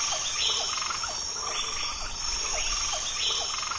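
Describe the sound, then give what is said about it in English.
Jungle frogs and insects call together: short croaking chirps repeat in a steady, regular rhythm over a constant high-pitched insect drone, moderately loud and without voices. “The sound of the jungle animals and insects was like a metronome that pushed him forward.”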